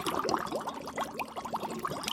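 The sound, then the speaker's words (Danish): Bubbles blown through a drinking straw into water make a quick, steady run of bubbly gurgles and small popping burbles, fairly quiet and unbroken for the whole short clip. “Det er lyden af et sugerør, der blæser bobler i vand.”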